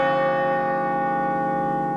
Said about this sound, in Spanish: Todo esto se cierra con un campanazo que ya lo hago en 3, 2, 1 y lo hice.